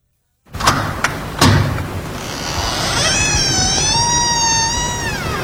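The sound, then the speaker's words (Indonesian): A door opens with a few sharp clicks and a thump, then a cat lets out a long, loud meow whose pitch rises and then wavers as it is held. “Sayang, buka pintunya dong.”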